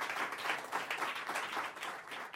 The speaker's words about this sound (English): Ladies and gentlemen, give it up for disgruntled executive producer, Abby.